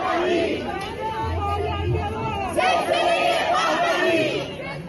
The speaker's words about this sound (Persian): مردمی که امروز اینجا جمع شدن از شهرهای مختلف و حتی کشورهای مختلف دور هم اومدن.